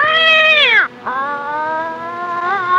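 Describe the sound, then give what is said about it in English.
An angry cat yowls loudly in two drawn-out harsh wails. The first slides sharply downward into a short break, and the second is long and sustained with a slight wobble near the end. “I guess that's a cat noise, but that's someone like beating up a cat. And this cat's angry, and it jumps off the bag”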